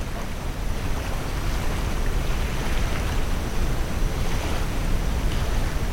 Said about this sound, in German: Das sanfte Rauschen des Meeres begleitet dich in den Schlaf.